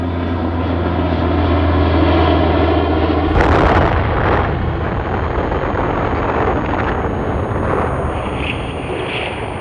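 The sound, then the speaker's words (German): An American propeller plane dropping a bomb on Hiroshima in 1945: a steady, loud, low droning engine hum is cut by an abrupt, massive explosion about a third of the way in, followed by a sustained rumbling roar to the end. “Am 6. August 1945 warf ein amerikanisches Flugzeug eine Bombe auf Hiroshima ab und machte die Stadt damit für den Feind unnutzbar.”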